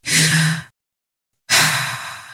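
A deep breath taken alone: two long, airy breath sounds separated by a pause of silence, the first fuller and lower, the second trailing off more gradually.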